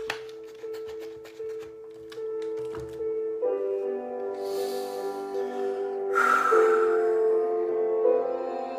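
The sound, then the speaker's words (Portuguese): Water poured from a small bottle into a glass, a soft trickling gurgle with a faint ringing tone that carries on for several seconds and grows slightly fuller toward the end. “Tá aqui minha garrafinha. Vou encher o meu copo, porque eu também fluidifico para mim.”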